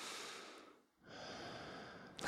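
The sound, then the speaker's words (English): Soft, airy breathing out through a nose that had been blocked for a week: one long exhalation, a short silent gap, then a second long one, with another breath just beginning at the end. Quiet, with no talk. “I can breathe through my nose right now. Listen. I don't want to exhale through my nose. Oh, I can though.”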